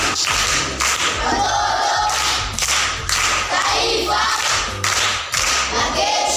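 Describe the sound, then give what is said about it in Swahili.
Applause from a school audience for a pupil reciting proverbs, dense and continuous clapping with scattered thumps and a few shouts, loud and steady for several seconds. “Makofi kwa shangazi.”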